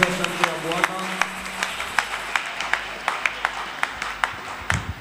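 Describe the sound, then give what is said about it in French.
A church audience clapping in praise of the Lord, keeping a steady rhythmic beat of many crisp claps, with a voice heard briefly at the start. “Est-ce qu'on peut acclamer pour le Seigneur?”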